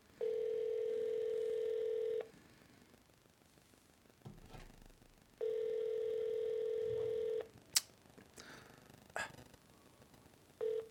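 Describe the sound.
Ringback tone of a telephone on an outgoing call: two steady, mid-pitched tones of about two seconds each, separated by a silence of about three seconds. A few faint clicks and knocks fall in the gaps, and no one talks.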